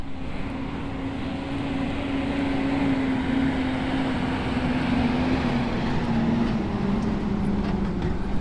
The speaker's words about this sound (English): And here is the sound of a garbage truck.